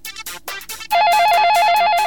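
An electronic telephone ring for a radio call-in contest: a few short choppy bursts, then a loud, steady warbling tone that alternates rapidly between two pitches and holds to the end.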